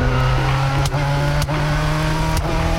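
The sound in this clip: Car engine of a manual-transmission car driven by a beginner, a steady low hum holding one pitch, broken by a few brief dips and jolts.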